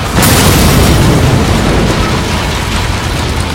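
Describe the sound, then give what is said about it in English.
A car explodes with a sudden loud blast, followed by a broad, sustained roar and rumble that stays loud and slowly eases. “The car explodes.”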